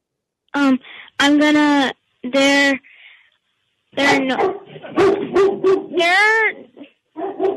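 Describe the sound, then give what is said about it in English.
A pet dog barks in a string of drawn-out, tuneful, almost voice-like barks, yips and whines, loud and alone, starting with a few separate calls, then after a pause a longer run of many close-set, wavering cries. “That's my dog. Your dog? I thought it was your dad.”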